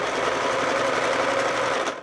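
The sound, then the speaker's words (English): A sewing machine stitches a new coat lining at a kitchen table. Its motor gives a loud, steady, unbroken whir through the whole clip. “sits at her kitchen table in front of a sewing machine,”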